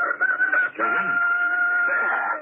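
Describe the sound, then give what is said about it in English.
A rooster crows: a short opening phrase, a brief break, then a long, loud, steady, high-pitched harmonic call held to the end. “I told you it was a rooster”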